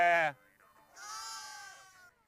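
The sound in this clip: A sheep on a Mongolian herding homestead bleats in one long, wavering, nasal cry lasting about a second, following a brief loud burst of sound at the start.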